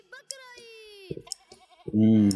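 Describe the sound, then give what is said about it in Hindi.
A goat bleats in a video game, with a few short harmonic calls followed by one loud, sustained bleat at the end. “बकरा बुला रहा है भाई, जल्दी करें, इसको भूख लगी है।”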